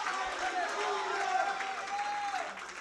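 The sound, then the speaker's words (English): A church audience claps steadily in praise, a dense, continuous patter of many hands with crowd voices calling out over it. “would you clap your hands unto the Lord in this place and shout hallelujah”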